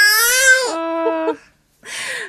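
A newborn baby cries in two bursts: a long, high, wailing cry that drops in pitch partway through, then after a short pause a second, shorter cry.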